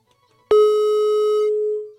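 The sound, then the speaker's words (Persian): A telephone tone sounds after a caller hangs up on a phone-in line: one steady, fairly loud electronic tone with a bright ring, holding for just over a second on its own before fading out. “نمیدونم چرا زنگ میزنن قطع میکنن.”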